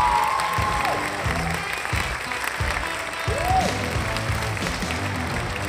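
Audience applause and crowd noise greet the hosts' arrival, a dense, continuous clapping wash that holds steady and fairly loud throughout.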